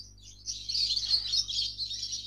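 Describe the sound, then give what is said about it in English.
Small birds chirping, heard through an open door: busy high-pitched twittering that swells after a soft start and carries on without pause over a low steady hum. “Someone's got little birds. Yeah, so I've got the door open.”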